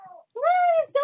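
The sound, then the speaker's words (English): A newborn infant fussing: a few high, harmonic cries, with a short one, then a longer wavering cry, and another beginning after a brief pause. “I love that sound. That sound is like it's the happiest sound in the world. He was fussy. Okay, just the sound of an infant.”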